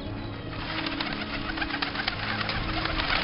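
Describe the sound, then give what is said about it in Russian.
Crows circling over the steppe after a poaching hunt, in an animated cartoon: a soft rustle of flapping wings with faint bird calls, quiet and continuous. “В небе кружат вороны.”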